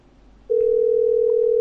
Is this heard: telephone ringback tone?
yes

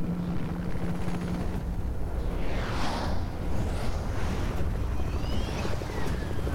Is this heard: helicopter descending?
yes

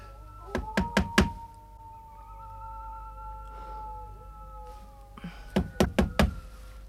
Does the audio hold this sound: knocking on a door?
yes

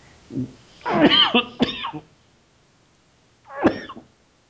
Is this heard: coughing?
yes

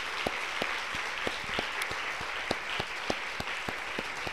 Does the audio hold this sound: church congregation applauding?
yes

